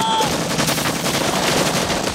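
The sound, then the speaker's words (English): Rapid automatic gunfire in a combat scene, bullets peppering the ground around soldiers as they drop for cover. Dense, loud, overlapping bursts of shots run without a break. “Bullets tear into Brown's body. Shots pepper the ground and the soldiers get down.”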